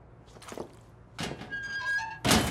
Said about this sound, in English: As the man closes the locker, the window swings open.